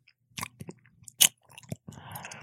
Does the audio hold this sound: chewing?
yes